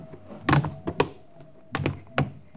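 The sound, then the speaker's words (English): Dull, muffled thuds of people landing on an adjoining rooftop after a jump, trying to land quietly; several irregular, low thumps at moderate level, with no voices. “All right, let's jump. Try to land as quietly as you can.”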